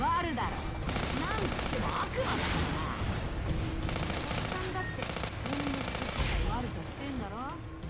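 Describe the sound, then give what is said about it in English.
Rapid video-game gunfire strikes a ball-shaped tank that rocks and rolls backwards when hit. The shots form a dense, loud, unbroken barrage throughout, with a single deeper thump breaking through late on. “Yeah, I love that the tank like rocks around still when it's hit.”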